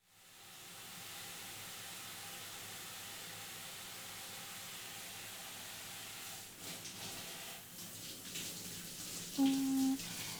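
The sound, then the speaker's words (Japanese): Warm water running steadily to rinse hair during a hair wash, a broad, even hiss that continues without pause, slightly unsettled near the end. “では流していきますね。”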